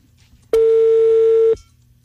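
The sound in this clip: Telephone call being dialed and left unanswered: a single loud, steady electronic ring tone lasting about one second, rich in buzzy overtones, with quiet stretches before and after.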